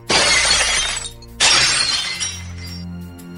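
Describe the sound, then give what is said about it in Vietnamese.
Mirror glass shattering inside a wardrobe pushed over onto the floor: two loud, sharp crashes of breaking glass about a second apart, each trailing off in tinkling fragments. “Nhất thời chỉ nghe thấy bên trong tủ quần áo truyền đến âm thanh gương vỡ vô cùng chát chúa.”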